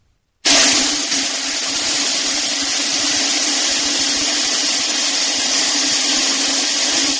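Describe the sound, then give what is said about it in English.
Hundreds of BBs, about 500, pour into a metal soup pot as one loud, dense rattling hiss. It starts abruptly and holds steady without gaps to the end. “The sound that you are about to hear is a BB falling into a metal soup pot.”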